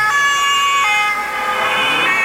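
A loud, continuous emergency vehicle siren holds high steady tones that shift pitch a few times, over a constant low background rumble.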